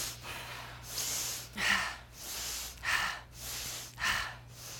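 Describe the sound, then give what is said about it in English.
Fast, deep breaths during a shoulder-raising exercise: a quick run of rhythmic breathy in-and-out bursts of moderate loudness, with a low steady hum underneath and no talking. “what we're going to do is just raise our shoulders up to our ears in 5 deep breaths. So we're going to go... And now we're gonna do it fast.”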